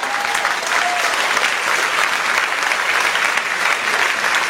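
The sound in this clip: Audience applause and acclaim at a worship gathering, a dense, steady wash of many hands clapping that stays loud and even throughout, with no talk over it.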